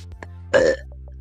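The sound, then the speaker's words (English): A single short, throaty burp from a person bursts out over a low steady hum, followed by faint small clicks and quiet. “I just burped. Can you burp on command?”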